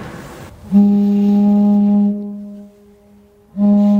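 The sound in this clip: Wooden organ pipes sound a low, steady, foghorn-like note rich in overtones. It holds for over a second and fades, then starts again near the end.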